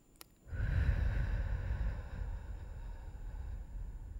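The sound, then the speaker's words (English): A slow belly breath drawn in through the nostrils during a self-care breathing exercise: a single long, soft, airy inhale that holds steady for several seconds. “And then the belly pops up as you breathe in. I'm doing this again, in through the nostrils,”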